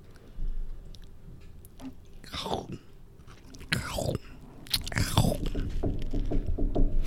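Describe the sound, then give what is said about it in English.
Crisp crunching and chewing as a cookie is eaten close to the microphone, with several sharp bursts of crunch separated by softer, moist mouth sounds. “Now, I'm going to eat a cookie.”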